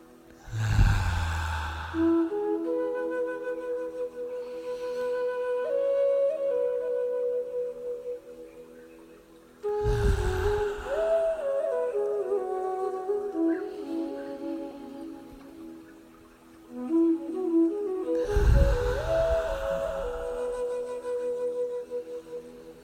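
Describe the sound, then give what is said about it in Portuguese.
Deep, slow breaths from a morning breathing exercise: three long, airy inhalations spaced roughly eight seconds apart, rising above a soft, sustained melodic music bed. “Vamos, todos juntos, sete vezes para o dia começar feliz. Inspira. Profundo, suave.”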